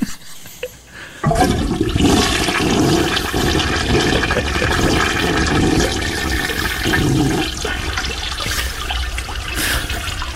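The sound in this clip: Water drains away in a toilet flush: a loud, rushing, gurgling roar that starts abruptly after about a second of near quiet, then holds steady and eases slightly toward the end.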